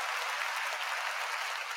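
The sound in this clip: Audience applause welcoming a comedian onto the stage at a live comedy show, a brief, steady patter of clapping at a fairly soft level.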